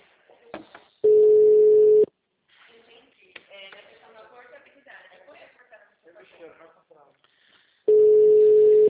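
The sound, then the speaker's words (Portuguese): Telephone ringing tones on an outgoing call, two loud, flat, steady beeps about a second long and several seconds apart, with a person speaking softly between them. “Alô? Ai, tá chamando.”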